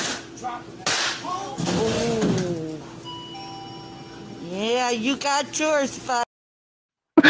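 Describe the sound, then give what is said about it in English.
A sharp, slapping smack as a can of Twisted Tea is slammed into a man's face, a loud burst of impact amid excited talking voices. “Did you see the Twisted Tea thing just explodes on his face? He literally smacked him with it?”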